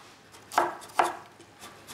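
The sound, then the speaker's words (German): A knife chops bell peppers and chili into strips on a board: two sharp, loud knocks about half a second apart, followed by a few softer cuts. “Die Paprika werden so in Streifen geschnitten. So, ein bisschen Chili noch.”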